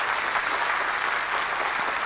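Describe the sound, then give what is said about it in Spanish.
A church audience applauds for the Lord in a dense, steady wash of clapping. It holds at an even level from start to finish, with no single claps standing out. “Denle un aplauso al Señor. Gloria a Dios.”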